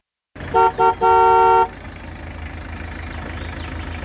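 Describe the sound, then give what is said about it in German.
Car horn honking three times from afar, two short toots and then a longer sustained blast, followed by a low steady engine-like rumble with no further honks. “Der junge Mann, der wie verrückt gleich mehrmals auf die Hupe drückt”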